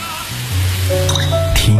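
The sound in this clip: Water running and dripping from a tap, a continuous trickle with a few plinking droplets over a low, steady tone, fairly loud throughout.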